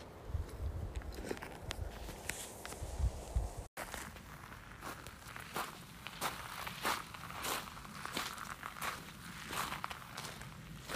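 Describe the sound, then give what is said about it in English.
Footsteps crunch across a nearly dry riverbed of the Merced River, crossing a slightly wet spot; many steady, uneven steps scuff and crackle on loose ground at moderate level, with no talking. “I'm walking in the riverbed of the Merced right now. And the spot that I'm crossing is just a little bit wet.”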